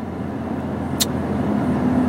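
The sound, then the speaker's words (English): A car drives through traffic, producing a steady low engine and road rumble that holds even throughout, with one brief sharp click near the middle. “I'm just paying attention to this traffic here. It'll take a turn here”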